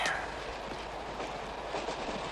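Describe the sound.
A moving train carriage gives a steady, dense rumble and rattle that holds at an even level throughout the short stretch.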